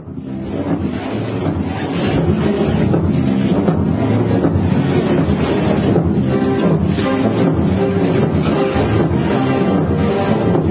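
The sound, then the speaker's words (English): A galley rowing at ramming speed in the film Ben-Hur, heard as a dense, steady rushing roar that stays loud and unbroken throughout, with a faint driving pulse woven through the noise. “I want to play a clip of Ben-Hur. They found it. This is us, ladies and gentlemen. Attack speed. Ramming speed.”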